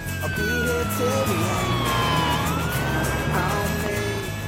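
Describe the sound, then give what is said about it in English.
A fire truck siren wails loudly and continuously. Its pitch slides down slowly, then climbs back up, over a low rumble. “He sprints after the fire truck.”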